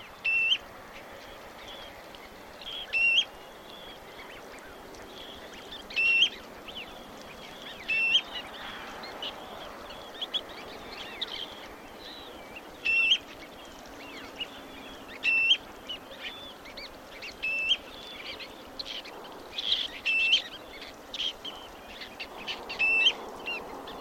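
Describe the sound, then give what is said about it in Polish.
Two-tone contact calls of a common ringed plover, many short, high-pitched notes repeating at fairly regular intervals of a few seconds over a faint, steady background hiss. “Posłuchamy za chwilę składającego się z dwóch tonów głosu kontaktowego sieweczki obrożnej i nasłuchujmy, bo sieweczki już wracają.”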